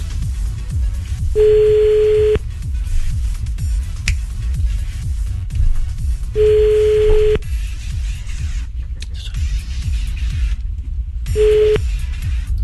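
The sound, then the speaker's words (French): Telephone ringback tone during an outgoing call: three steady, mid-pitched tone bursts, each about a second long and spaced evenly, with the last one cut short. A constant low rumble runs underneath. “Oh, Lilian, on appelle Lilian.”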